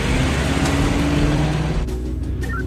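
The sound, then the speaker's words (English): A car drives out of a garage into the city, heard as a loud, continuous rumble of engine and road noise that shifts in tone near the end. “Outside, a garage door opens. Pastor sits behind the wheel, and Regina sits beside him. They drive out into the city.”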